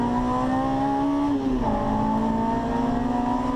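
Race car engine shifting gears, a loud continuous buzzing drone whose pitch drops sharply once partway through as the gear changes, then holds steady and climbs slowly again.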